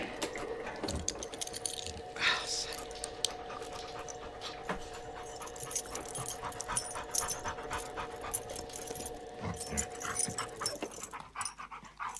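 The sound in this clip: A dog pants quickly and steadily as its leash is put on. The rapid, rhythmic breaths continue for about twelve seconds at a moderate, even level.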